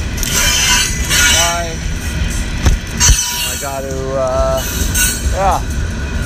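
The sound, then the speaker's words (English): A train arrives at a station with a steady, broad rumble, a couple of sharp knocks and a few brief tonal whines above it. “But, waiting for the train to come.”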